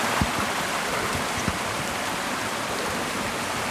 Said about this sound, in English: And here's the sound of the stream flowing beside it.